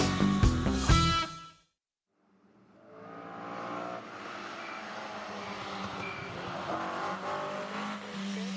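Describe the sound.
A motorsport race car roars in after a brief silence. The engine sound builds quickly to a sustained, high-revving drone with a rough, buzzing edge that holds loud and steady to the end.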